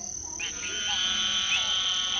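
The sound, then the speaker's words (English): Frogs croak in a chorus of high, buzzing trills over a sustained shrill whine, growing louder after the first half second and then holding steady. “Did you know frogs were the first land animals with vocal cords, and they've been singing with them for over 360 million years?”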